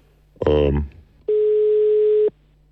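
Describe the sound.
Telephone ringing tone while calling a number back: a brief voice sound, then one steady mid-pitched tone lasting about a second before cutting off, with a low hum underneath.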